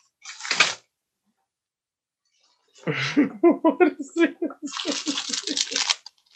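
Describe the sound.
Tearing as an Amazon package is ripped open: a short sharp rip, a pause, then a longer rasping tear while a person talks.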